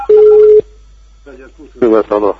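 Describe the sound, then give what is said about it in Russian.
A single steady mid-pitched phone tone sounds for about half a second as a call is placed to a second phone, followed after a quiet pause by people talking. “Вот я звоню. Посмотрим. Звоню на второй телефон.”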